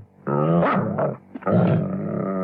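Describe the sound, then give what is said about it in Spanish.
A dog growls in two long, rumbling, snarling bursts separated by a short pause. The growl is loud, with no speech. “Ese perro es un animal peligroso.”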